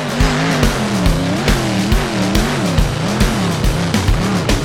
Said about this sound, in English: revving up its motor. Vroom, vroom, zoom, zoom, up it goes. Spin your wheel.